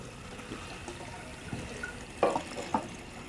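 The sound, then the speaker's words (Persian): Running water flows while dishes are washed, a soft, steady splashing hiss with a couple of brief clinks near the end. “دارم ظرف میشورم.”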